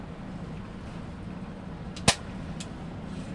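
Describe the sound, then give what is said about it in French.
A pump-action salt gun fires a jet of salt: one sharp, brief crack that stands out against steady background noise. “Ça tire fort. Je sais pas si on a entendu quelque chose, mais bref, ça tire un jet de sel”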